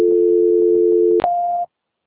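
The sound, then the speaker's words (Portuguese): A telephone call transfer tone: a steady low two-pitch tone holds for over a second, breaks off with a brief click, then a single higher tone sounds briefly before cutting to silence. “Só mais um minuto, por favor, estou transferindo a ligação da senhora.”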